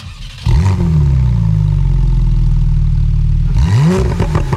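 A naturally aspirated Porsche 911 engine with sport exhaust revs up sharply, holds a loud, steady drone for about three seconds, then blips again near the end.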